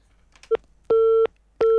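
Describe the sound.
A telephone busy signal from a call that fails to connect: a short blip followed by two longer bursts of a steady, mid-pitched electronic tone, loud and clean with no voices.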